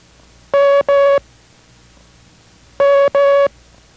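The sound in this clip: Morse code letter M is sent as two long steady tones. The same pair of dashes is repeated after a pause, over a faint hiss in a code-training lesson.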